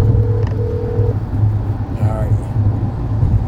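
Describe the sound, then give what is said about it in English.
Car driving on the road during a drive back from Detroit, a steady low engine and road rumble that stays even throughout. “we're driving back from Detroit.”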